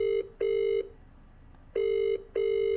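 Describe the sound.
A telephone ringing tone plays after a call is dialed, sounding as two double rings of a steady mid-pitched tone separated by a quiet pause.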